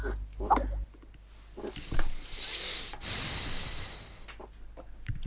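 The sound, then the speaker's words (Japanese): A deep breath drawn in, a loud rushing, breathy draw of air lasting about a second with a snort-like edge, rising out of lower rumbling noise and fading again. “なんで深呼吸したんですか？”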